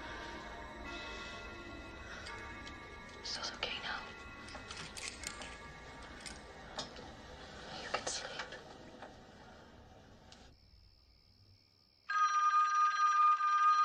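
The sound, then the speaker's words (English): A telephone rings in a bedroom, a loud, sustained electronic ring that bursts in near the end after a long stretch of quieter, mixed background sound. “Lying on his bed with headphones on, Glenn stands and grabs the phone. Hello?”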